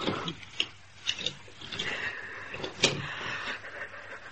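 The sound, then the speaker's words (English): A key turning to lock a door, heard as a few sharp metallic clicks and light rattles spread over a few seconds, fairly quiet. “All right. I'll lock it.”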